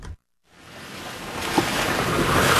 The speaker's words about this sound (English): We've been driving from the capital, Kathmandu, to one of the worst affected areas, the district of Rasua. What you're hearing are the winding, dizzying dirt roads up the mountains of northern Nepal.